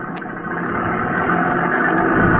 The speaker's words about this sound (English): Just a minute, Mills, until I release the emergency brake on this wreck. Well, it's not the emergency brake. The gear shifts in reverse.